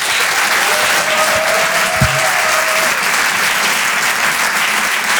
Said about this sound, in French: Je vous demande de faire un maximum de bruit, s'il vous plaît, pour Paco Pérez.